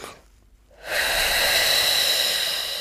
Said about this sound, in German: Also sehr tief einatmen, halten und dann